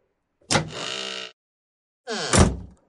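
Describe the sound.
A house door opens in two separate bursts. Each begins with a sharp click or knock and runs into a brief grinding, creaking drone. The sound is quiet and isolated, with silence between the bursts and no voices.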